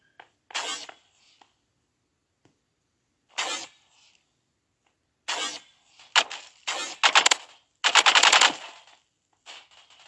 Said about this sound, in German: Boom, hinterrücks erschossen.